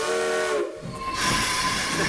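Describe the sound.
A steam train leaving a station, with a loud, steady hiss of steam running throughout and sustained high whistle tones sounding over it.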